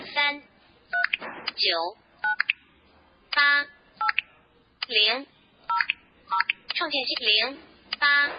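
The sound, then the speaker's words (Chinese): Telephone keypad dialing tones while a number is entered on a phone: a series of short, bright beeps, spaced irregularly, with someone talking between them. “那现在我们拨打的电话号码，比如说我呼叫这个”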